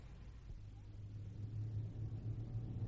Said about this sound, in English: A full hour into the trip and none of the wheels have fallen off. Isn't that right, Bunter? Eh? I said your uncle's car is a jolly old motor.